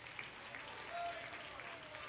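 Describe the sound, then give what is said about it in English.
Congregation clapping hands together during a church service: a faint, continuous wash of applause, even in level with a slight swell in the middle. “If you believe that with Pastor, will you clap your hands?”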